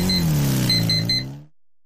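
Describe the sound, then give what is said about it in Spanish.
CF Moto Dual 250 dual-purpose motorcycle engine revving, a loud throaty drone that dips slightly in pitch before cutting off abruptly into near quiet. “Llega la CF Moto Dual 250, la doble propósito más completa de su categoría.”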